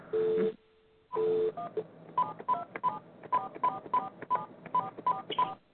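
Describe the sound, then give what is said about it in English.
Telephone keypad dialing tones: two longer tones separated by a short gap, then a quick, evenly paced run of many short beeps at differing pitches as a number is entered. “I must have dialed the wrong number.”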